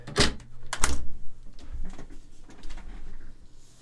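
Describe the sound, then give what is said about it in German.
A window being opened. Two sharp knocks of the latch and frame come in quick succession, followed by softer rattling and rustling. “Ich kann auch das Fenster mal aufmachen, ein bisschen das schöne Wetter genießen.”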